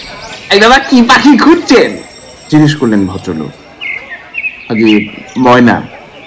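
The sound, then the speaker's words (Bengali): Birds chirping in a crowded bird shop: short, high chirps and thin whistled tones mixed with strong voiced sounds that may be talking birds or people, in several loud bursts. “দোকানটা বড়, তাতে সন্দেহ নেই, আর পাখিতে বোঝাই, কিচিরমিচির শব্দে কান পাতা যায় না।”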